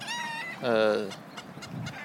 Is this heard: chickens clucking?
yes